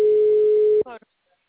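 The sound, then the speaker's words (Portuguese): A single steady telephone ringback tone sounds while a call goes unanswered. It is a loud, even hum lasting under a second, then cut off by a brief, faint snatch of voice. “Ah, ninguém me atende.”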